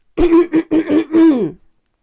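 Someone clears their throat of something stuck, a milkshake, in a loud string of raspy, voiced bursts: short ones first, then a longer, drawn-out final rasp, with no other sound.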